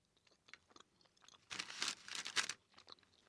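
Crunching bites of bread crisped on one side in a toaster: a few faint, brittle crackles come first, then a burst of loud, dry crunchy chewing that fades to softer crackles.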